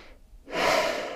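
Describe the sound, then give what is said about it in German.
Deep breathing during a guided seated meditation: a soft, faint breath, a brief near-silent pause, then a longer, louder airy breath that fades only slightly, with no talking over it. “Und jetzt atme ein, zweimal tief ein und aus.”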